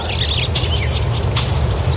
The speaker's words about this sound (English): Is that a brown-headed nuthatch? No, I think it's a pine.